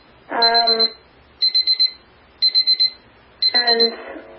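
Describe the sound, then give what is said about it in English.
An electronic alarm going off: high-pitched beeps in quick bursts, each burst a rapid string of pulses, repeating with short gaps. “That's the alarm going.”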